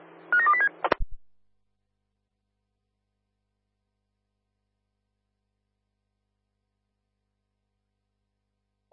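A telephone number is dialed as a quick run of short keypad tones lasting about a second, then a couple of low clicks, followed by long silence.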